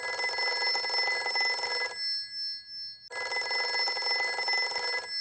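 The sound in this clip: A telephone bell rings in two long, steady, shrill bursts separated by a short silence. The second burst is cut off at the end.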